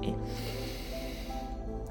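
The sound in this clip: A deep breath drawn in through the nose during a guided breathing exercise, a steady airy rush lasting about two seconds over a soft tonal background.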